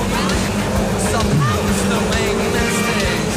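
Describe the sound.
Race cars roaring around a track on the final lap of a race: a loud, steady engine drone with one car's pitch sliding down as it passes, and a voice talking over the noise.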